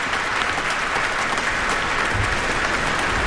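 Audience applause greets a solo performer after an encore at a concert, a dense, steady wash of clapping that holds at an even, loud level throughout.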